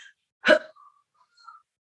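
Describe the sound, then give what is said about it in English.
A single sharp, loud inhale, the kind of bracing breath taken before lifting something very heavy, cuts off abruptly into a breath hold, leaving near silence with a couple of faint soft sounds afterward. “It's a big inhale and an immediate breath hold. So yeah, they're trying to maximize this increased pressure in the abdomen.”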